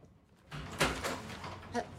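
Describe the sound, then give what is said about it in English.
A front door being opened: a few sharp clunks and rattles over a low, muffled background. “hurries to answer the door.”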